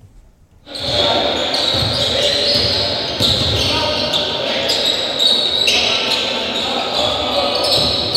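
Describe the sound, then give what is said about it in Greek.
A basketball dribbled on a parquet court during a game, with repeated thuds under a loud, steady crowd roar. “Βάζει την μπάλα στο παρκέ, θα πάρει τον αριστερό διάδρομο και θα πετύχει το καλάθι για το 53-78.”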